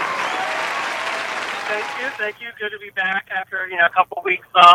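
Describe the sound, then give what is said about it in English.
Dense applause greets a caller, an NFL expert, joining a sports talk show by phone, holding steady for about two seconds before it stops and a single voice starts talking. “actually, as we all we've been doing, we've been giving them their round of applause”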